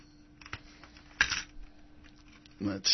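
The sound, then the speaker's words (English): Pressing the eject button on a player makes a few sharp plastic clicks and clunks, with a louder mechanical rattle at the end. “Whoops, I got to hit eject. Come on out. That one doesn't want to come out.”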